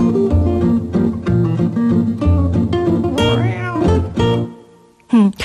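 Cats meowing: a few drawn-out, pitch-bending meows over a sustained tonal backdrop, ending in a sharp, loud meow after a short lull.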